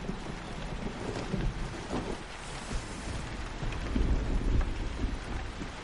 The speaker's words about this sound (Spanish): Cae una lluvia torrencial.